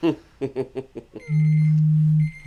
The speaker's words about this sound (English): That's the alarm letting me know I don't need it. Nice. That's my do not buy alarm.